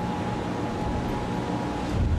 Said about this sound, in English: In Louisville, Kentucky's largest city, giant water pumps are whirring away near the Ohio River.